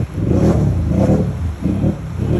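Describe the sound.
A vehicle with huge wheels and a snorkel drives through water about a meter deep. Its engine gives a steady low rumble mixed with rough churning noise that surges in a few waves.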